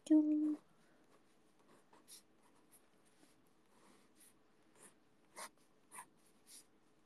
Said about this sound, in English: I'm drawing with a pen. I made a mistake.